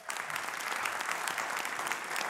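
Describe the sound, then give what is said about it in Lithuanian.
Applause from an audience welcoming a guest onto a stage: steady, dense clapping that stays fairly quiet and even throughout. “Pasitikime plojimais.”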